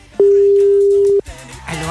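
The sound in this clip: Telephone tone as a call is placed: one steady, loud, mid-pitched beep lasting about a second, followed by softer, indistinct sound.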